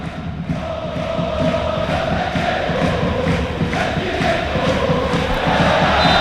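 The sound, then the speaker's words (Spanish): Football supporters cheer in a Spanish stadium, a dense and loud crowd roar that holds steady for about six seconds, with massed voices blending into one continuous wall of noise. “Esa es la afición”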